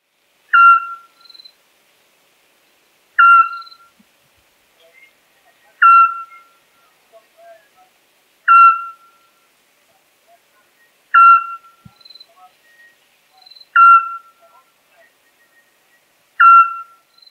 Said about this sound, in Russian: Совка Сплюшка.